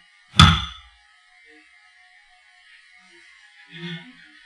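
A monk strikes an object once during a meditation retreat. A sharp, loud knock is followed by a long, faint, steady ringing tone, and a soft second sound rises briefly near the end.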